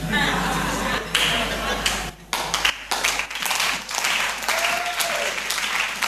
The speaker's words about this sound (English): I didn't say clap, so if you are clapping, clap well.